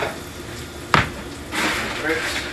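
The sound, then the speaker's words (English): Garlic sizzles in hot oil in a pan as it is stirred, a soft crackling hiss with one sharp knock early on and the sizzle swelling louder later, while a person talks over it. “Add that to the pan. Give that a nice little stir. Oh, that smells good. That oil is getting that garlic nice and cooked.”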